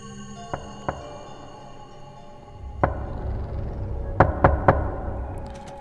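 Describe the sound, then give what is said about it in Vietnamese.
Knocking on a door in groups of three: sharp knocks at uneven intervals, ending with a quick cluster of three raps, over a steady droning background. “Một hồi sau thì chắc chắn đây là tiếng gõ cửa. Ba tiếng một, cộc cộc cộc.”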